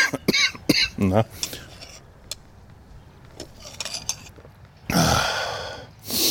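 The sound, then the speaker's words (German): A sick person coughs in a fit: a cluster of sharp coughs at the start, a quiet stretch with a few faint sounds, then a louder, longer burst of coughing near the end. “Ja, die Husterei geht gerade wieder los.”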